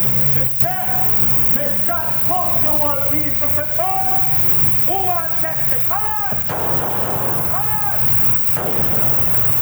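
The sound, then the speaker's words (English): Heavy gunfire rattles on without pause, many sharp shots and bursts packed densely together, loud throughout, with voices calling out over the shooting. “It's a lot of shooting.”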